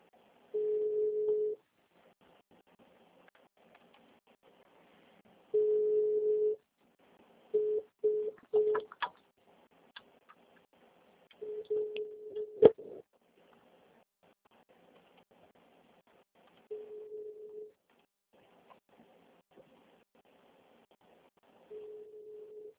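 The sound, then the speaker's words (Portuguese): Telephone line tones while calling an office extension: a low steady tone in repeated faint bursts separated by quiet gaps, with a few shorter beeps in the middle. “só vou ligar aqui no ramal.”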